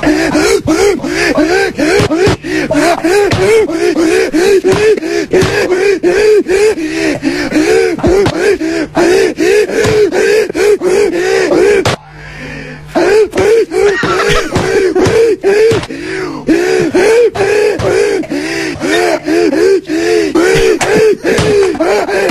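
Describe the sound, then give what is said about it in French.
A man's heavy breathing from an advertisement with the words removed: loud, rhythmic gasping breaths and panting repeated throughout, with a brief pause near the middle. “une petite vidéo qui montre que quand on enlève toutes les paroles, on garde juste le respire d'un gars en publicité”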